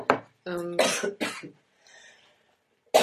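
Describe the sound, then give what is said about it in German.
Coughing from a person whose voice is breaking comes as several harsh bursts in quick succession, some with a hoarse voiced tone. A faint breathy sound follows in a pause, then another sharp cough. “Das ist das Unangenehme am Stimmbruch. Diese Husten.”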